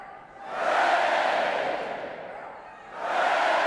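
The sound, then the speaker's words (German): A crowd of British people cheering, a loud, dense roar that swells, eases off, then surges again toward the end. “Die Briten jubeln, doch Churchill warnt sie.”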